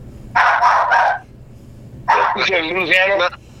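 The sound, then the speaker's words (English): A pet dog barks in two loud bursts of a few barks each, separated by a pause of about a second. “That's my dog, Mr. Bubbles.”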